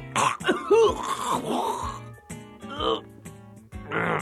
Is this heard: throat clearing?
yes